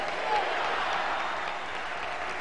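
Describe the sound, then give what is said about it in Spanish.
A crowd gives a standing ovation for Fidel Castro during a speech, a continuous wash of clapping with a murmur of voices mixed underneath. “Y vamos a enviarle un aplauso, pero de pie, al gigante Fidel Castro.”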